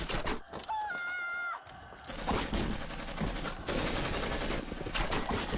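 Machine-gun fire in a battle, a faint, dense stream of rapid crackling bursts that continues without a break.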